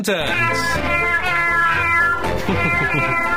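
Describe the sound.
A cat meows in loud, dense, harmonic calls that run almost without a break, with the pitch wavering from call to call.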